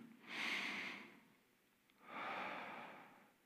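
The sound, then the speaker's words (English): A deep, slow breath taken while pausing to center oneself: two long, airy swells of breathing that rise and fade gently, soft and unhurried, with a quiet pause between them. “So the first thing I do when I get that, I want to stop. I want to breathe.”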